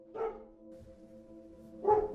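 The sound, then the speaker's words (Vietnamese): A dog barks twice in a countryside setting: two short, fairly faint bursts separated by a long pause, over a steady low hum. “Định nói cái gì thêm nữa thì tiếng chó ở đâu sủa lên rất là ghê.”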